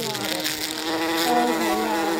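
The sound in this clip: A fluffy-faced solitary bee, a ground-nesting kind that favours wetter soil, buzzes in a continuous droning hum that rises slightly in loudness over the second half.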